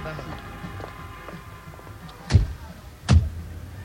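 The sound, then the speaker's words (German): Two dull thuds of car doors shutting as people get into a car, the second slightly heavier, over a low steady background rumble. “Kommt, wir setzen uns in mein Auto, da können wir besser reden.”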